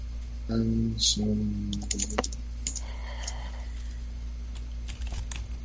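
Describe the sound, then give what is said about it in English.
Typing on a computer keyboard as a city name is entered once again. Quick clicking keystrokes come in uneven bursts, and a voice is heard briefly at the start. “This is so annoying when I have to type this over and over.”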